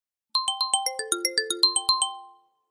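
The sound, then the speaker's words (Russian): An incoming call rings on a phone as a rapid melodic ringtone of thirteen bright electronic notes at an even, quick pace. The last note rings out and fades. Nothing else is heard. “Звонок особой государственной важности.”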